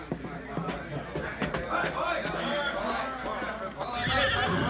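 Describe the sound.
Horses, a white stallion and a paint tied at a hitch rack, whinny amid hoof clops while people talk over them.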